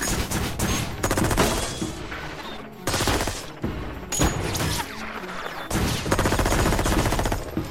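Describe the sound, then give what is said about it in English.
A gang shoots out security cameras in repeated bursts of rapid automatic gunfire, loud and dense, separated by short gaps. “He shoots out the camera, and as the gang prepare to move, they shoot out all the other cameras as well.”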